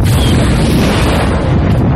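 A heavy, rumbling boom as a plasma blast strikes the center of a starship, loud and sustained through the whole clip with a dense low roar.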